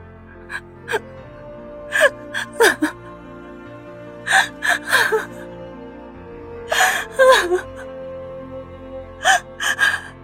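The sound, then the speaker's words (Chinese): A man breaks down sobbing, his crying coming in clusters of short, gasping, catching breaths with whimpering voiced cries, over a soft low sustained tone. “迈着沉重的脚步，华天云走出实验室，实在撑不住了，他缓缓的蹲下身子。失声痛哭起来。”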